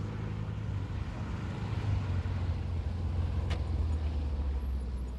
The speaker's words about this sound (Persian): ماشین از میان کوه‌ها و جاده‌های پوشیده از برف می‌گذرد.